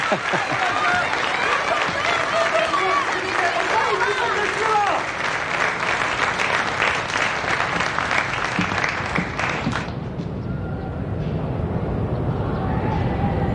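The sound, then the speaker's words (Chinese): Applause from an audience welcoming a poetry recitation at a stage event: dense, loud, steady clapping with voices mixed in for about ten seconds, then thinning into softer background noise. “掌声欢迎。”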